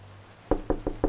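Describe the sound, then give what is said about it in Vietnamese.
Four sharp knocks land on a room door in a quick, even rhythm after a moment of quiet, each one crisp and fairly loud. “Bỗng bên ngoài có tiếng cộc cộc phát ra. Có ai đó đang đứng ở phía trước cửa phòng Tẹt.”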